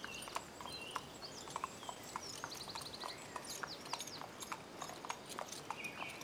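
A ridden horse's hooves clip-clop at a steady, even walking rhythm as it passes travellers, with birds chirping faintly throughout.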